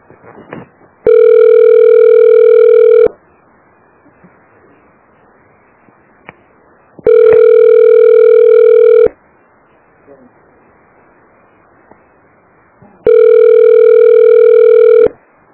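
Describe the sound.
Ringback tone of a telephone call that goes unanswered: three long, steady ringing tones at a constant pitch, evenly spaced, with silence between them.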